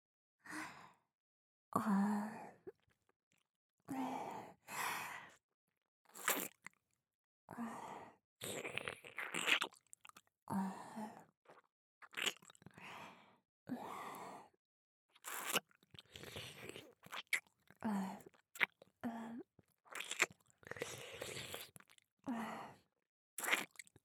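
Crunchy bites and chewing of food, with many short, crisp bursts in an irregular rhythm separated by brief pauses, close and clear with no talk.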